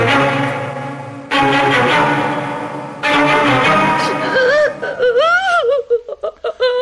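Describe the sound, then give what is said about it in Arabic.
A woman cries in high, wavering sobbing wails that break into short pulsing gasps toward the end. The crying follows a loud, steady harmonic passage. “كفاية عياط”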